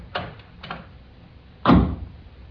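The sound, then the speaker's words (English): A lock is unlocked at a door: two light clicks, then a heavier, louder clunk, with no talking. “unlock your lock first.”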